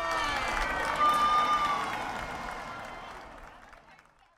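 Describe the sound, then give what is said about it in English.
A crowd cheers at the finish of a village running race, a dense, loud wash of voices that gradually fades away. “They darted towards the finish line, but were both pipped at the post by a runner in green. Everyone cheered.”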